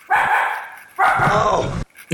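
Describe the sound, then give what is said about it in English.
Loud dog barking: a short bark, then a long drawn-out one, and a third starting at the end, with sharp gaps of quiet between them. “I'm waiting for the dog to start barking.”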